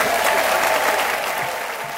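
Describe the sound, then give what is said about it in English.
An audience applauds to welcome an author at the Hay Festival: loud, continuous clapping from many hands that holds steady and eases off only slightly toward the end. “A big Hay Festival, clap and cheer, please welcome Julia Donaldson.”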